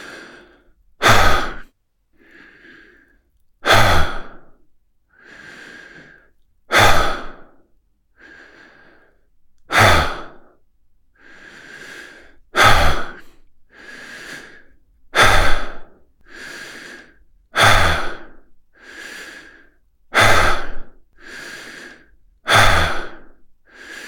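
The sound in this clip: Deep, slow breathing in and out as a relaxation exercise: many regular cycles, each a soft inhalation followed by a loud, breathy, sighing exhalation, with quiet pauses between them and no talk.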